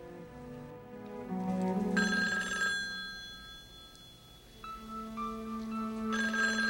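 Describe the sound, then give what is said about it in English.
A telephone rings with sustained, bright repeating tones that shift pattern a few times, loud and steady with no voices. “He goes to answer the phone.”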